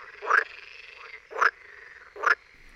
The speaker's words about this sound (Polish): Głos żaby wodnej to wielokrotnie powtarzane z przerwami, przyduszone, jakby wydawane z trudem okrzyki.